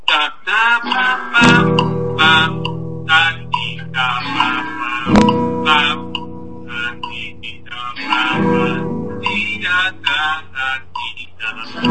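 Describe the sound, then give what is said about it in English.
Piano chords ring out one at a time, three in all, each held for four beats before the next is struck, while a voice talks or counts over them. “So, practically speaking, every chord will last four beats, and therefore it will sound like this.”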